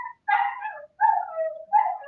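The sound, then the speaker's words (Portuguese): A dog whimpers and yips in three high, whining cries. Each cry starts sharply and tails off, with brief silences between them and no talk. “O cachorro do Alex quer participar.”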